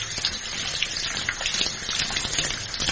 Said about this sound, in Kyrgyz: Колду жууп алабыз.